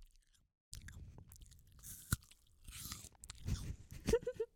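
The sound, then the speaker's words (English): Crunchy, wet chewing of a bar of Cadbury milk chocolate, with many irregular bites and mouth sounds after a brief silent start, close and fairly loud, with no talking. “Oh, I think I butchered this bar of chocolate. Oh, no. All right, give me a second. I'm going to give the fans a taste of this.”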